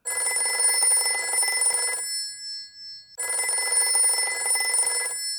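A telephone bell rings in two long bursts separated by a pause of about a second. Each burst is a bright, rapid metallic rattle at a steady, loud level.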